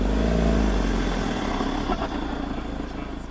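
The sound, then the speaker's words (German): Jeep engine driving down a mountain track to the valley, a steady low motor rumble that runs continuously throughout and eases slightly partway through. “Am Nachmittag dann fährt Hörtenheimer für einmal mit dem Jeep die Strecke ins Tal hinunter.”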